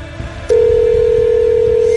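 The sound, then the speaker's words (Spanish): A telephone tone sounds as a phone dials out to a radio call-in prize winner: after a faint background hiss, a loud, steady, single-pitched tone starts and holds unbroken to the end. “Nada, que el teléfono es precioso. Mira, anda haciendo ya su jale. A ver, ojalá que nos contesten.”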